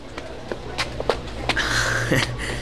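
Footsteps of a few people walking, soft irregular steps over a steady background hiss, with a faint drawn-out creaking tone partway through.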